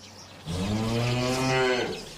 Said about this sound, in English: She says she loves her cows and calls them her children.